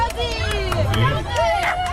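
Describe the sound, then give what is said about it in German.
Excited shouting and crowd voices at a dachshund race as the dogs run, with a continuous babble of loud calls throughout. “So, meine Damen und Herren, klingt's beim Dackelrennen, wenn Dackel rennen.”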